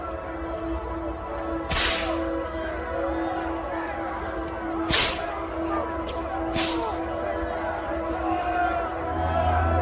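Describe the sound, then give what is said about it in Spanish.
Three sharp cracks of a whip, a three-tailed flagrum used to scourge a man, ring out spaced apart over a dense, steady background of droning tones and murmur. “Uno de los latigazos más impresionantes fue aquel cuando el látigo cayó sobre los testículos del maestro.”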